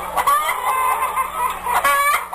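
A hen clucks loudly and alone in a few short bursts, with clearer, more tonal calls near the start and again near the end.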